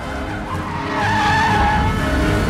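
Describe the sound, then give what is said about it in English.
A fleet of police cars speeds past and pulls up at a large industrial complex, with a sustained screech of skidding tires over a broad engine roar that swells louder midway and stays loud. “A fleet of police cars speed past the two men standing by the hot dog stand and pull up at a large industrial complex.”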